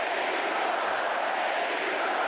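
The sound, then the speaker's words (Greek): Warm applause from a large crowd at a political party convention in Chicago forms a dense, steady, unbroken wash of clapping that holds at an even level throughout. “Συγκινημένο είναι και το πλήθος που το χειροκροτεί θερμά επί 4 λεπτά.”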